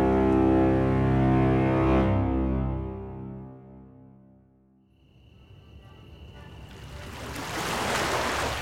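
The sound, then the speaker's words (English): Waves wash at a harbor lined with ships. Music fades out to near silence, then a broad, hissing surge of water rises and grows steadily louder toward the end. “I was back where all my adventures took me. Back to the harbor. Back to the ships bound for somewhere”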